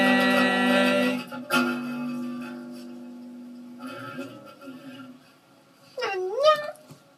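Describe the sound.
A singing voice imitating a cat's meow closes a song about becoming a cat. A held, sung vocal note fades out, then a short gliding meow-like vocal sweep rises and falls near the end.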